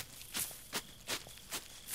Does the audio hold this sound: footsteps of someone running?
yes